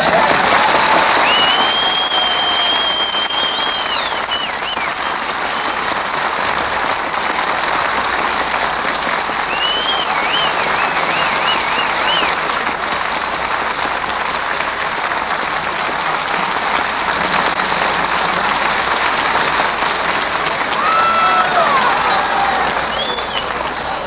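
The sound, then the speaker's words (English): An audience applauding and cheering: loud, dense, continuous clapping throughout, with shrill whistles and shouts rising above it now and then. “Is that the audience?”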